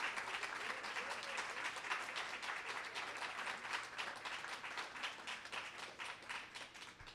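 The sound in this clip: Audience applause welcoming an author to the stage at Politics and Prose: dense, steady clapping from many hands that holds at an even level for the whole clip.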